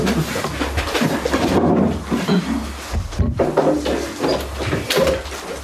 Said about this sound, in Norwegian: Ordfører Bente Bjerke åpner vinduet på kommunehuset for å slippe inn litt luft.